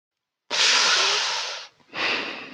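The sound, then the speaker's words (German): A loud huff of breath blown straight into a microphone gives a long harsh rush of air that fades, breaks off briefly, then returns as a second shorter puff. “Ein Schnaufen aus Berlin.”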